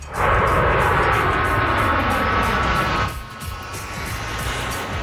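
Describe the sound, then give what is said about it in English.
CT-114 Tutor jets of a Canadian Armed Forces air demonstration squadron make a flyover with a loud, sustained roar. Partway through the sound drops sharply, then continues as a lower rumble that slowly builds again. “That is the sound of the iconic CT-114 Tudor jets doing a flyover.”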